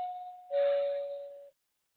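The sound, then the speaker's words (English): An electronic two-minute timer bell: a clear steady tone that steps to a slightly lower, louder chime, which holds for about a second and then cuts off into silence. “that was supposed to be the 2-minute bell. I have it automatically set up, but once again, if you want to hear this sound right here,”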